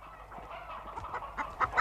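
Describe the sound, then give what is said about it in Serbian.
Stolen chickens cluck under a shabby hood, soft and muffled at first, the faint scattered clucks growing busier and slightly louder toward the end. “On ispod otrcanog kapišona krije čitava jasta pokradene pileži.”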